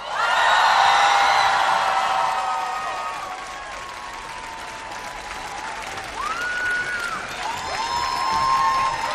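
An outdoor concert crowd in Gdynia applauds and cheers, loud at first, then easing slightly before swelling again, with shrill whistles rising above the clapping.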